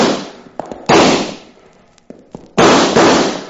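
Gunfire in a radio western drama shootout among rocks: three loud blasts with long, fading tails, separated by a few smaller clicks and taps, with no talking.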